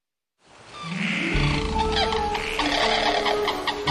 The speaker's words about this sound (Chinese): 这是仙鹤的声音，这是老虎喘息的声音，这是长臂猿的声音。